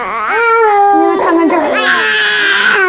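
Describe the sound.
A baby cries loudly and without pause, a wailing infant voice with strong, wavering pitch that turns shriller and more strained in the second half.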